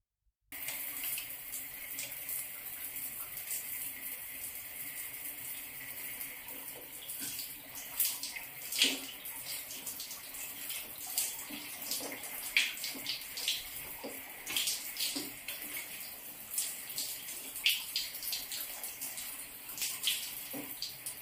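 Water gushes from a tap to fill a bath, a steady hissing rush with small splashy fluctuations that starts after a brief silence and runs on alone for about twenty seconds.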